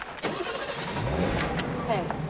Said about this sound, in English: silver BMW convertible pulls away.